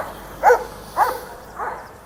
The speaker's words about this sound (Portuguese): Mais um cachorro. Oh, meu Deus, hoje é o dia da cachorrada treteira.